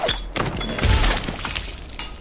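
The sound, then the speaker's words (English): A grenade explosion in a video game, a brief burst of crackling, shattering noise with a deep thump in the middle that tails off quickly. “Actually, let's show you how explosives work.”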